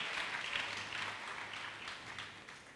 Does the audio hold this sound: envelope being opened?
no

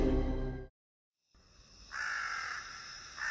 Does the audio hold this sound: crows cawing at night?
yes

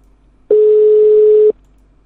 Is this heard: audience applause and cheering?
no

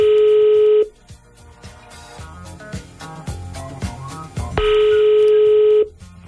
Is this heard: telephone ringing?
yes

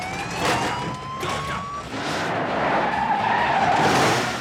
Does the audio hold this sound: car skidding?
yes

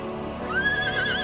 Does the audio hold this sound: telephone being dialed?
no

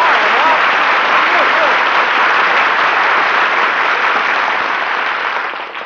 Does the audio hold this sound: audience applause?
yes

